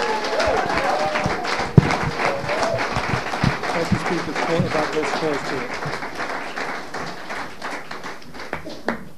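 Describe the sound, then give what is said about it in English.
An audience applauds a speaker with dense, steady clapping that fills the whole stretch, with voices faintly underneath. “Och nu en applåd till våran talare Richie från Kanada, Vancouver, Kanada.”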